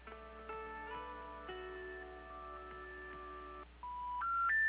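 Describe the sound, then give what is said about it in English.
Touch tones dial a telephone number through an operator: a quick run of short, stepped keypad beeps, followed by a brief pause and then three rising tones in succession, with no voices. “Okay, I'll go ahead and dial for you.”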